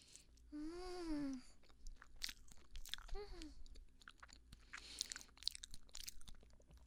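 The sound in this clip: Faint, soft chewing of a durian mille-feuille crepe cake, with moist smacking and scattered small clicks, broken by two hummed, pleased vocal tones.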